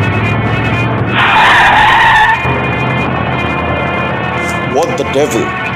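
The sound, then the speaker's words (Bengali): A car speeds past at high speed on an evening road in traffic, nearly grazing pedestrians. It makes a loud, harsh burst of roaring and tire-skidding noise lasting about a second, with voices heard afterward. “পর মুহূর্তে দারুণ স্পিডে আর দারুণ শব্দ করে একটা গাড়ি আমাদের প্রায় গা ঘেসে চলে গেল”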